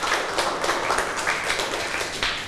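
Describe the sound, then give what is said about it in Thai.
Applause from a class of students clapping for themselves at a teacher's prompt: a dense, steady patter of many hands that holds at an even level for the whole stretch, with no talking. “ปรบมือให้ตัวเองอีกหนึ่งครั้งค่ะ”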